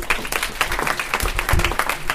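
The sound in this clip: Applause from an audience welcoming a speaker at Swarthmore, a dense, steady clatter of many hands clapping throughout.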